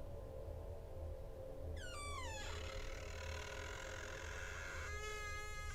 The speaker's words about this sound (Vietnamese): Đúng lúc ấy, cánh cửa phòng từ từ mở.